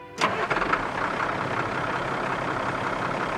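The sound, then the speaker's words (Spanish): A grain truck idles while parked beside a granary during a cold-weather corn harvest. An abrupt onset gives way to a steady, broad engine rumble that holds at an even level to the end. “En el granero contiguo, un transportista de grano estaba estacionado con su motor encendido.”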